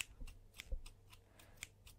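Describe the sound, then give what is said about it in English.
Hair being cut with scissors: many quick, crisp snips in a steady rhythm, faint and with no other sound. “Look down, please. I need to cut lots of hair here. So many hairs.”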